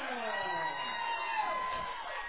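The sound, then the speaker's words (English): A football crowd cheers after a first down on the third play of a drive in the third quarter: a steady, broad roar of voices with scattered shouts and whoops that holds fairly even throughout. “Crowd here at John Peoples Field shows their approval.”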